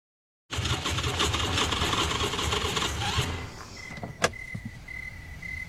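Car engine running out of gas, a rough, loud rumble that chugs along for a few seconds and then cuts out, followed by a sharp click and a thin, steady high warning tone.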